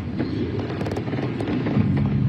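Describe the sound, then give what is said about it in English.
Gunfire at a crowded Super Bowl victory rally in Kansas City: a rapid burst of several sharp cracks, then a few scattered shots, over a continuous dense crowd noise. “Gunfire. Screams.”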